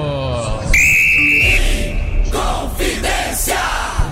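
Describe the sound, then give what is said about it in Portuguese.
A referee's whistle starts the second half of a Copa do Brasil round-of-16 football match at Arena MRV with one sustained, high, steady blast of about a second, followed by loud, continuous crowd noise. “Apita pela primeira vez no jogo Fernando Antônio Mendes de Salles Nascimento Filho.”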